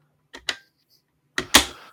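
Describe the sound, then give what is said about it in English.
A Sega Dreamcast disc tray with a sturdy hinge, right next to the microphone, opens and shuts in two pairs of sharp plastic clicks separated by silence. The second pair is louder. “I'll open up my Saturn or Dreamcast disc tray and just shut them again. You know, they make a lovely sound. Here's the Dreamcast one, it's right next to my mic.”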